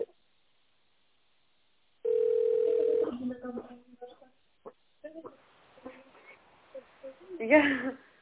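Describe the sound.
A steady telephone line tone sounds for about a second while an office call is transferred to a colleague. Brief clicks and muffled, voice-like sounds follow, faint at first and then louder.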